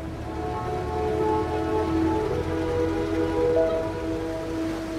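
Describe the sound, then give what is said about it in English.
Heavy rain falling on a parked car with its top up, facing the sea. A steady, dense wash of drumming and hiss continues evenly throughout, with no voices. “The car is now parked facing the sea. The hood is up, and heavy rain falls in the soft sunlight.”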